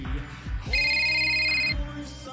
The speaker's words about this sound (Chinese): 快啲听电话啦，快啲啦！